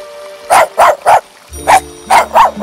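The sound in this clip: Small dog barking in short, sharp yips, a few in quick succession, then a brief pause and a few more, loud over a faint steady tone.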